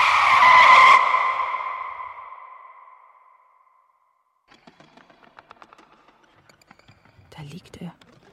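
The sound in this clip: A car skids on asphalt as a person runs into it: a loud, high tire squeal for about a second that fades slowly over the next few seconds, followed by faint whispered speech.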